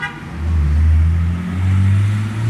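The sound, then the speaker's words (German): Loud car engine revving as a driver speeds through the town of Ludweiler and guns it near the edge of town. A deep, steady droning roar dips briefly midway, then settles at a higher pitch. “Die rasen durch Ludweiler, geben dann kurz vor Ende des Ortes nochmal richtig Gas,”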